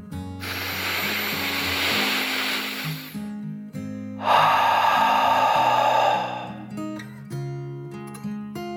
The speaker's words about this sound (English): Kiwa took a deep dragon breath, in and out.